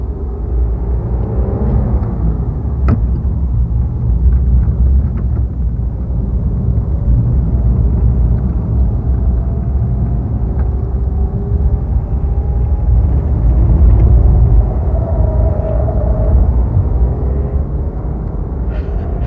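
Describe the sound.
A car engine rumbles as the car pulls away and drives in circles along city streets. A steady, loud, low drone fills the whole stretch with gentle swells and no voices.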